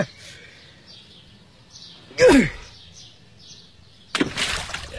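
An object splashes into water, heard as a broad, rushing burst near the end after quieter moments, while faint bird chirps twitter in the background.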